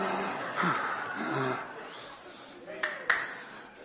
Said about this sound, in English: Pardon me while I get my breath.